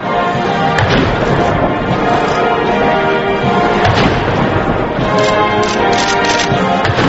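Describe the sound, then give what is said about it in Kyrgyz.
Artillery guns fire a 19-shot salute during a welcome ceremony for a visiting leader at the White House. The result is a dense, continuous rumbling roar with a few sharper booms standing out and no talk. “Коноктун урматын азан биректен 19 жолу салют атылды.”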